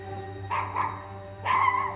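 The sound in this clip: A dog in a modern, airy house gives a few short, faint barks, two quick ones close together and then a slightly longer one, over a low steady hum.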